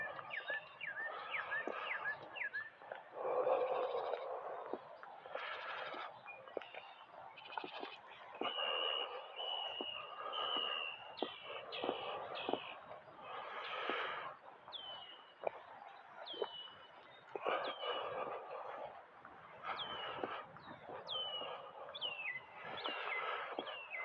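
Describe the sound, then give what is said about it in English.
Faint birds calling outdoors: many short chirps and higher whistled notes scattered throughout, with soft rustling and low background noise underneath. “These birds.”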